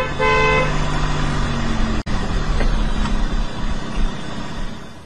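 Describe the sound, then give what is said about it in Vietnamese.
A car horn gives a short toot as a car pulls in off the road, followed by steady engine and road rumble with one brief dropout midway. “có một chiếc xe hơi từ phía Sài Gòn chạy lên bóp kèn, rồi quẹo vô sân nữa.”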